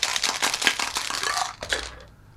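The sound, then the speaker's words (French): Paper slips rustle and crinkle as lots are drawn: a quick flurry of dry, crackly bursts for about two seconds that then tapers off. “Donc, procédons au tirage au sort. C'est parti.”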